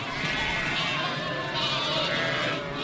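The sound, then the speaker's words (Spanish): Many lambs bleat loudly and continuously, their overlapping calls forming a dense chorus as they call for their mothers during a transhumance drive of the flock. “Sí, cada uno va a su madre ahora. Ahora, por eso gritan tanto. La reconocen por el balido y por el olor.”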